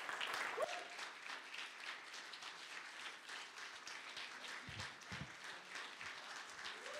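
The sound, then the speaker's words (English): Audience applause fills a church as guest speakers are welcomed: dense, continuous clapping from many hands runs steadily for the full seven seconds at a fairly soft level. “Now, I'm wondering here, are you clapping because I got Chris out of here?”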